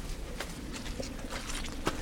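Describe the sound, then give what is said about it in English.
Squelchy footsteps along a boggy, waterlogged footpath on a winter walk in Monmouthshire, soft wet sucking steps at an uneven pace, fairly faint throughout. “The squelchiest, boggiest jackal like this. Squelchiest, boggiest walk ever.”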